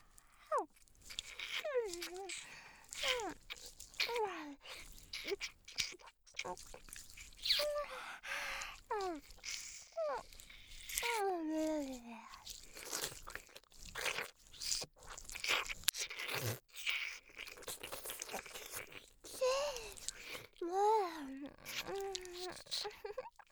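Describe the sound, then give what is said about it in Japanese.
Close ASMR ear-eating mouth sounds, starting on the outer ear: many wet clicks, smacks and crunchy nibbles in an irregular rhythm, mixed with soft voiced breaths and sighs. “じゃあお耳食べてあげるね。まずは外側から。”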